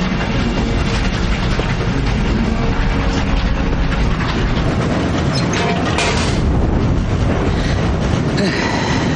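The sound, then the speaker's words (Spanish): Steady rumble and rattle of a steam locomotive train pulling away from a station, loud and continuous, with clattering wheels and brief metallic squeals mixed into the broad noise. “El tren se aleja ya de la estación. La locomotora proyecta un humo gris hacia el cielo azul.”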